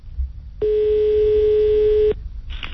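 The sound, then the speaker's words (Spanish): A telephone rings on an outgoing call to a Toyota shop in Madrid: a single steady, mid-pitched ring tone lasting about a second and a half, followed by silence and then a brief burst of noise. “Vamos a llamar a preguntar, ¿no? Vamos a llamar a Toyota.”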